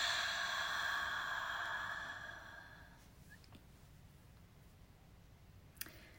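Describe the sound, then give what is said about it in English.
A slow, deep breath is released during a guided relaxation exercise, a soft airy exhale lasting about two seconds and fading into near silence; the whole sound is very faint. “Very slow, deep breath in. And release.”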